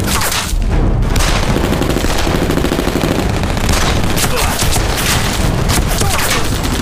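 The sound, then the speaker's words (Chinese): An artillery piece fires with a number-one propellant charge: heavy, booming blasts sound within a loud, continuous rumble that stays harsh and dense throughout. “开炮！ 哎，你一炮就打中了，老弟。”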